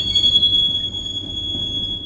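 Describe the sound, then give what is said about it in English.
Freight train wheels squeal in a rail yard beside a hump sorting hill: a steady, piercing high-pitched metallic screech holds throughout over a low, rumbling undertone. “And BNSF is just one of the railroads operating here.”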